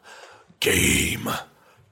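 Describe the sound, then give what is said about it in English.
A voice imitates heavy breathing with a small noise on each breath: one loud, breathy, drawn-out exhale lasting nearly a second, with faint breaths before and after. “And also breathing heavily, just making a small noise each time he breathes, like, oh,”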